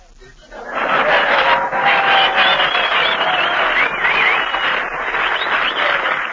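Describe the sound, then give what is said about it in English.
Applause from an enthusiastic audience: a dense, steady wash of clapping that swells quickly after a quieter start and stays loud for about six seconds. “Boy, there's an enthusiastic audience.”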